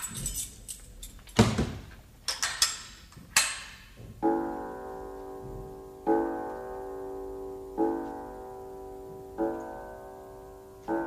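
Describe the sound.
A door is shut after keys are found left in it: a burst of clattering knocks and sharp thuds, then a run of evenly spaced ringing, chime-like notes that each fade before the next.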